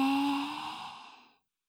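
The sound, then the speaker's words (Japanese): A deep breath during a guided breathing exercise: one long, airy whoosh with a faint whistling tone that starts strong and fades steadily to silence after about a second and a half. “君は深呼吸の達人だね。 吸って、”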